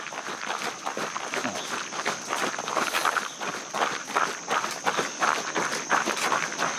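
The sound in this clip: Footsteps of runners pound steadily around mile 18 of a long run, many quick, even footfalls in a continuous rhythm. A faint, steady high whine runs underneath.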